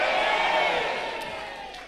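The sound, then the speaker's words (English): A church audience standing and shouting yay together: a dense, loud mass of overlapping voices in one sustained cheer that slowly fades toward the end. “Anybody who believes that, stand up and shout, yay!”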